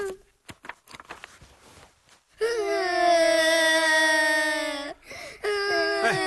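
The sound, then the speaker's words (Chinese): Two people crying: a few short sobs, then a long, loud, high wail, a brief pause, and another wail. “你哭什么呀？ 哎呦，你们两个怎么一起哭啊？一会儿全楼的人都来了。”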